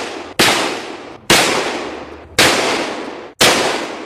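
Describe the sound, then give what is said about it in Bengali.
Revolver shots are fired in quick succession at a university convocation ceremony. Four loud, sharp bangs come at roughly even intervals, each trailing off in a ringing decay. “সেই অনুষ্ঠানেই বিশ্ববিদ্যালয়ের আচার্য জ্যাকসনকে লক্ষ্য করে তিনি চালিয়ে দিলেন পরপর ৫টি গুলি।”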